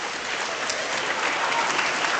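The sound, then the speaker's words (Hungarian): Steady applause from an audience after a stunt on a table: a dense, even patter of many hands clapping throughout, with no voices. “tapsoljuk meg, köszönjük”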